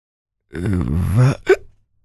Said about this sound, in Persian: در حالی که سکسکه می کرد و با لکنت حرف می زد گفت